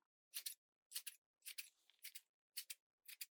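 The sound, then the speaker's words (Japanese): Scissors snip through hair close to the ear, giving six quick, crisp, bright bursts, most of them split into a double snip, spaced at a steady rhythm with silence between and no talking. “今度はちょっとお耳の近くを切るから、あんまり動かないでくださいね。”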